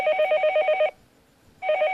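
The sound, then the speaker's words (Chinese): A telephone rings during a call to report an emergency. A bright, rapidly trilling ring lasts just under a second, pauses briefly, then starts up again. “拿起电话来。 对， 那边呢， 报警。 哎，打电话了。”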